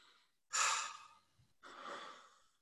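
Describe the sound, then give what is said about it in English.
Two deep breaths taken in a breathing exercise, each a long, airy rush of air, the first louder and the second slightly softer, heard alone with no talk. “take a couple of deep breaths. And I want everyone to just try right now.”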